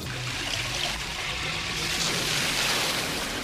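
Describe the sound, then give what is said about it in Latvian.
Water falling and trickling in a steady, continuous patter with a faint dripping texture, holding at an even, soft level without any talk. “Kas tas par troksni? Nē, paskat, ko tu izdarīji. Ūdens krītas. Tas krītas.”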